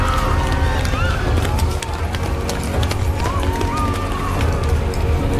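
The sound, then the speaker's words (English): Citizens running away in confusion across a city square: a dense, continuous stream of many hurried footsteps blends with loud crowd commotion and overlapping voices throughout. “In the confusion, the citizens started running away.”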